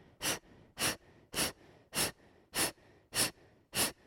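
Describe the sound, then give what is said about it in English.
Rapid, forceful exhales through the nose in a breathing exercise, with the belly pumping in and out. Seven short, strong puffs of air come at a steady, quick rhythm, with faint quiet between them. “Belly goes in and out very quickly. In, in, and the air goes out, out, out.”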